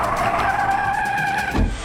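Race car tires skid in a sustained high squeal, a steady screeching whine with wavering tones that runs the whole clip and ends in a brief low rumble.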